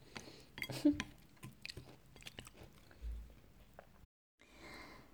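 Chewing and biting during a meal: irregular moist smacks and crunchy bites, with soft mouth clicks, fairly faint, broken by a short silence near the end.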